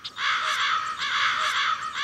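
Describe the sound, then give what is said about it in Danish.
A flock of black crows cawing as they fly over, their harsh, raspy calls overlapping in a continuous, clamorous chorus. “Der fløj en flok sorte, skrigende fugle hen over hende.”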